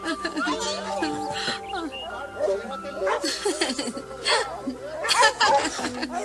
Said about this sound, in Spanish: ¡Cállenlos! ¡Perros, cállense ya! ¿Qué no pueden con esos animales? ¡Ya callen a esos perros!